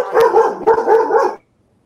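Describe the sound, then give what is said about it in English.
Dogs bark in two loud, tight bursts of overlapping yaps, then cut off abruptly into silence. “Sorry about the dogs. They have opinions about this topic too. They're triggered.”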